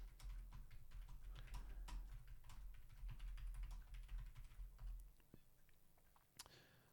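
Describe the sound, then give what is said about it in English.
Typing on a computer keyboard to write a message in a live chat. Quick, fairly faint keystrokes clatter steadily for about five seconds, then thin out to a few scattered taps. “I'm going to type that in the chat because I'm an interactive person.”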